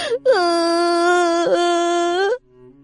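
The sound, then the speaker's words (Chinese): A child bursts into crying, one long, loud, sustained wailing tone with a brief catch midway before falling silent. “他猛地一下扑到荣寒生的怀里，哭了”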